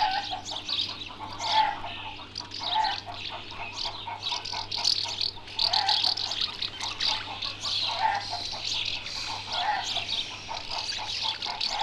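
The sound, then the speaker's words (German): Twittering song of a house martin inside its nest: a busy, unbroken chatter of high chirps and trills that runs the whole time at moderate loudness, with no other sounds. “und schließlich eine singende Mehlschwalbe im Nest”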